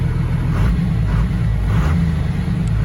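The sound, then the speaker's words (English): A Cummins 5.9 12-valve diesel engine runs at high idle, a steady, loud, low rumbling drone with a slight pulsing and no change in pitch. “Cummins. High idle? Yeah, way high idle Cummins. That's a 5.9. Yeah. Probably a 12 valve.”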